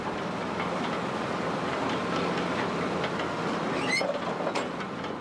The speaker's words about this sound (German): Sie fährt noch 800 Meter weiter über die Etschbrücke ins Marmorwerk.